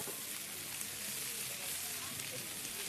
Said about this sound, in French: Quand ça cuit, ça fait psh, psh, psh. Eh ben oui, parce que tu as mis de l'huile d'olive dans la poêle, et tu rajoutes les oignons, ça fait psh.